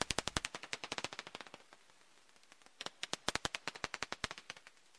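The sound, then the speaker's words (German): Echolocation calls of Daubenton's bats in Bad Segeberg, made audible as faint, sharp, dry clicks in fast trains: a dense run, a brief sparse lull, then another rapid stream of clicks. “Aber so klingen die Orientierungsrufe der Wasserfledermäuse in Bad Segeberg.”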